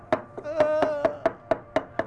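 A pestle pounds chili paste in a mortar: about nine firm, evenly spaced thuds roughly a quarter second apart, steady and unhurried, with no talk.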